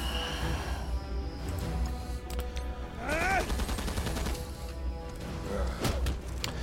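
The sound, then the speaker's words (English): Video game gunfire from a character's attack: several sharp shot-like hits within dense, busy in-game effects, with a brief swooping tonal sweep in the middle, fairly quiet overall. “normally I don't open with Rocket's second attack, but I've been doing it to get the additional attack primarily.”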